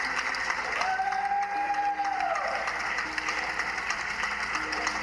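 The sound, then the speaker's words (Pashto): Applause from people at open windows and balconies on a lockdown evening in Europe, honouring doctors and nurses treating coronavirus patients. Steady, dense clapping runs throughout at a moderate level. “خلک هر ماښام د خپلو کورونو په پرانیستو کړکیو، بالکنیو او بالاخانو کې دریږي او په داسې حال کې سندرې وایي، د ستاینې نارې وهي او چکچکې کوي”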